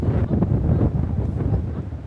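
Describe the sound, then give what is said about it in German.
Strong wind sweeps fine-grained sand across a beach in a loud, continuous, low-heavy roar of buffeting gusts that batter the microphone, with no voices. “Der Wind ist noch stärker geworden. Der feinkörnige Sand wird über den Strand geweht”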